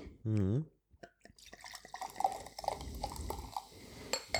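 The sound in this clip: Grape lemonade is poured into a glass. A short spoken sound and a few clicks come first, then a faint, steady splashing stream with bubbly drips that runs to the end.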